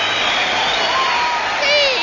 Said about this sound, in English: Signals applause.